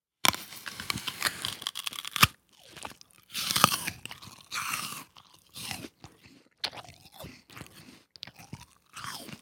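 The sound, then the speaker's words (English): Crunchy bites into a raw apple, then chewing: a loud run of crisp, crackly crunches in irregular bursts separated by short pauses, with no talk. “Let's just go to the apples and we'll just like slowly take a bite of it and just enjoy the sound of that natural.”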